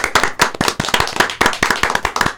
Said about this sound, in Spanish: Un aplauso. Bravo.